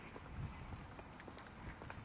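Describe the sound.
Faint footsteps of people walking outdoors from Langhusvej down toward the route, a quiet, fairly regular patter of many steps on hard ground.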